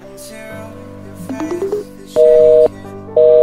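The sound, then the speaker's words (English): Tones from a telephone left off the receiver: a few quick, stepped electronic beeps, then two loud, steady off-hook tone bursts separated by a short gap. “Oh, no. He can't have been on the phone all this time. I think he's left his phone off the receiver.”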